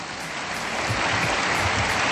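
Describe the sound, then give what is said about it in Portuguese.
Audience applause for a DJ at a university sunset event, a dense, steady wash of clapping that holds at an even level throughout with no voices standing out. “Também peço um forte aplauso para ele, por favor.”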